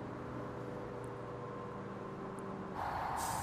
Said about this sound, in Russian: Автобус останавливается.